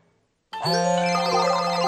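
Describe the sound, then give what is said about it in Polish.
A phone ringtone cuts in abruptly after a moment of near silence, a loud, bright melodic electronic tone that carries on steadily to the end. “Słyszysz? To tysiące przedsiębiorców właśnie odbiera telefon z nowym zleceniem.”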